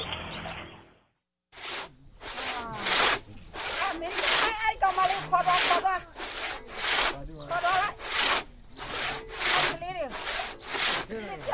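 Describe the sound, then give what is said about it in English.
Handsaw cutting wood on a back road outside a city in Myanmar: many steady, rhythmic rasping back-and-forth strokes, loud and alone, after a brief faint sound and a short silence at the start. “heard this handsaw.”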